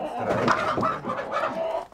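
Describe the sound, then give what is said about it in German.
Panicked laying hens and a rooster cluck while being caught in their coop: many quick overlapping clucks and squawks, busy and continuous throughout. “Vier Legehühner und ein Hahn müssen mit.”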